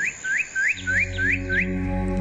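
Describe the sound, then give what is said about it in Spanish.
A bird sings in a forest with six short, rising whistled notes at an even pace. A steady low humming tone enters partway through and continues under the song. “El canto de un pajarito que te despierta en medio del bosque.”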